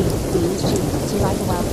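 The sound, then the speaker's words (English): Thunderstorm with heavy rain, a loud, dense wash of rainfall and deep rumbling thunder running continuously through the whole short stretch. “I'm going to pause the game until this storm goes away.”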